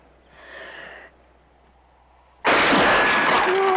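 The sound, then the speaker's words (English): A rifle shot fired while the gun rests on someone's shoulder: after a quiet stretch, one sudden loud blast cuts in and its roar stays loud to the end. “He rests the rifle on her shoulder once more and takes aim.”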